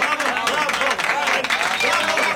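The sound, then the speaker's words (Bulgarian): An audience at a satirical comedy show applauds and cheers, with a loud, continuous spread of clapping and voices rising over it. “Аплодисменти! Браво!”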